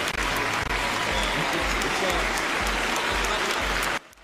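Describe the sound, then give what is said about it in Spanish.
Loud, sustained applause for Sebastián Piñera at the Chilean presidential handover ceremony in the National Congress, with a steady low thumping pulse underneath, before cutting off abruptly near the end. “Don Sebastián Piñera Echenique. Pero como lo aplauden,”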